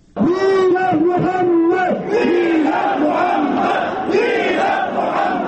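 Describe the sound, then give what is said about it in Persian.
An angry crowd of protesters in Kabul shouts in unison against cartoons of the Prophet Muhammad published by a French magazine, a loud, sustained mass of voices rising and falling through several chanted phrases. “این صدای قهرآمیز کسانی است که در اعتراض به نشر کاریکاتور منسوب شده به حضرت محمد مصطفی صلی الله علیه و آله و سلم، پیامبر بزرگوار اسلام، از سوی مجله تنزی شارلی هبدوی فرانسوی در کابل گرده هم آمده بودند.”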